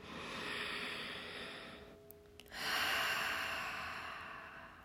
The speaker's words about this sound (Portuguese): Então respira mais uma vez aí profundamente.